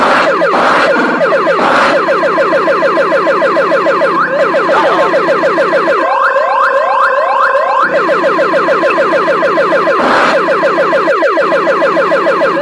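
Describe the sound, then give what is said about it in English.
Warning siren in a video game, a loud, continuous electronic wail that sweeps rapidly up and down in a looping pattern. Partway through, the sweeps briefly change to a faster, brighter pattern before the original cycle returns. “Basically, the siren means I'm almost out of line.”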